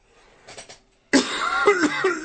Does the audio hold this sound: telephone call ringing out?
no